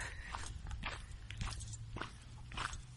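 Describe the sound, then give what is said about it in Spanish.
Footsteps of a person walking along a street in Barcelona on a sunny day, coming from the gym: a steady, even rhythm of several gritty steps over a continuous low hum. “Disperso, Disperso, Tiempo Escaso, el podcast que se graba por la calle, viniendo del gimnasio.”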